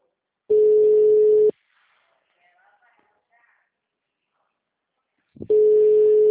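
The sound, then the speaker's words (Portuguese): A telephone ringback tone sounds while someone is being called. A steady single-pitched beep lasts about a second, then comes roughly four seconds of near silence, then the same tone begins again. “Vou ligar. Será que ela me atende agora?”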